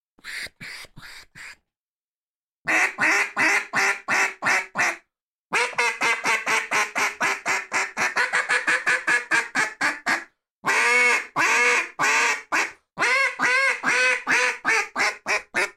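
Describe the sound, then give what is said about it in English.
A MEGAPHOR duck call is blown to imitate hen duck quacks. Many loud, nasal quacks come in rapid, rhythmic strings of several calls each. Short silent pauses separate the strings, and the quacks shift slightly in tone from one string to the next. “and you get kind of different sounds. At least I'm hearing them on this end, that none of those ducks were the same duck based on the position of that tongue and being able to manipulate that airflow”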